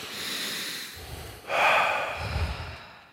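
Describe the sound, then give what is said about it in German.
Deep breathing, slow and airy, with full rushes of breath in and out and one louder, harsher intake partway through. No talking. “atme einmal mit mir.”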